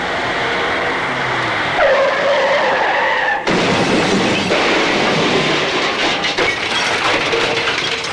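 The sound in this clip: Road traffic passes near a studio as a loud, continuous roar of vehicles with a high, whining edge. The rumble shifts abruptly partway through and then continues, with no voices.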